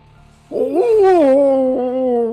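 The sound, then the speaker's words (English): A person imitates a wolf howl during a tabletop role-playing game: one loud, sustained voiced howl that rises sharply at the start and then slides slowly downward in pitch, with no other voices. “that's a bad wolf howl”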